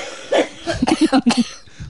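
Coughing in a rapid series of short, hoarse bursts, one opening cough followed by a tight cluster of several more, fairly loud with no talk over them.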